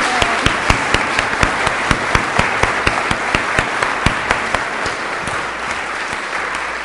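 A church audience applauds to welcome visiting worshippers. The clapping is steady and dense, with distinct individual claps standing out, and it thins slightly toward the end.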